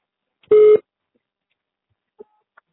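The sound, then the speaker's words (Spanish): A voicemail recording tone sounds once on a telephone line: a single short, steady, mid-pitched beep standing alone, followed by two faint ticks. “Por favor, grabe su mensaje después del tono. Al terminar, presione el símbolo de número.”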